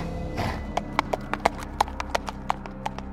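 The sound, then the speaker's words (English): Hooves of a galloping centaur clip-clop in a quick, fairly regular run of many sharp, woody knocks, loud and alone after a brief breathy rush at the start. “The centaur galloped back to the kitchen.”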